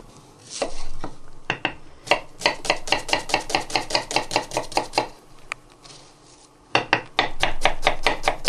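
A knife chops onions finely, with many crisp, quick strikes in a steady rhythm, a short pause, then another rapid burst of chopping. No one speaks.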